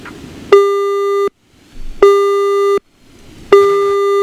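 A telephone line tone sounds after a caller is cut off: three loud, steady beeps of equal length at the same pitch, evenly spaced by short silences.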